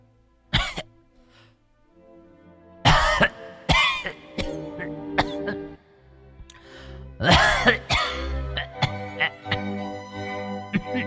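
A woman coughs hard in an inner room: harsh, repeated hacking with throat clearing, coming in several clustered bursts separated by short pauses.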